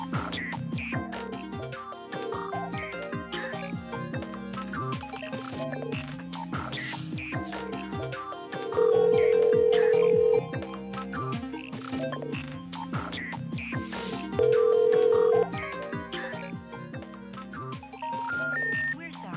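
Two steady, loud electronic tones from a telephone call to a Home Depot number disconnected for non-payment, each lasting one to two seconds, ring out over continuous busy music.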